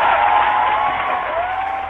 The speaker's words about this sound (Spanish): Y, bueno, para usted. Tome el aplauso para usted.